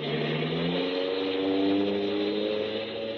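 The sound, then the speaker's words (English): A car drives off, its engine hum climbing steadily in pitch as it accelerates, continuous and moderately loud with no voices over it. “Save the apologies. Just start driving.”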